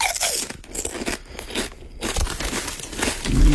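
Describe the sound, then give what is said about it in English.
Someone chews crunchy potato chips. Loud, dense crackling crunches follow one another without a break, with a few sharper crackles standing out and no talking. “Chewing crunchy chips, eating crunchy chips. Yeah, it is potato chips.”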